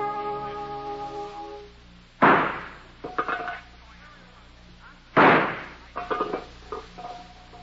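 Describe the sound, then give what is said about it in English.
Two loud gunshots a few seconds apart, each a sharp blast trailing into a short rattling, echoing tail, over a low steady hum. “Will you stop shooting?”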